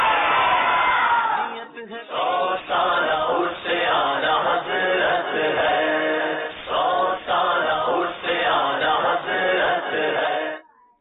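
A crowd chants the Faizan-e-Ala Hazrat religious slogan back at a naat competition show in loud shouted bursts. Many rhythmic calls are separated by brief pauses throughout.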